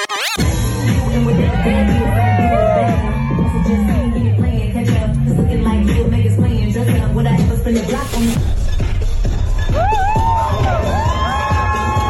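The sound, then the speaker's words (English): A crowd at New York Fashion Week cheers and whoops in a loud, dense wash of voices. High shouts and whistle-like calls rise over the din, with one brief break partway through before the cheering surges again. “That is the sound of New York Fashion Week.”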